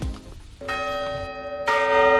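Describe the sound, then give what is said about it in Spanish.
Ringing bell strokes of the twelve New Year's Eve midnight chimes: a few resonant metallic strikes whose long sustained tones overlap and build in loudness, with no voices. “Acabamos el año con las 12 campanadas Hyundai.”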